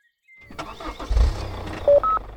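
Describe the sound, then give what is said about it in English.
A car engine starts and runs at a medium pitch, then two short electronic tones sound near the end. “They drive off, and you can hear them calling the radio.”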